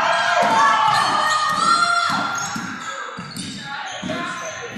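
A basketball dribbled on the court during a Lady Owls game against Punxsutawney: a steady run of dull, evenly spaced bounces under loud crowd shouting and cheering.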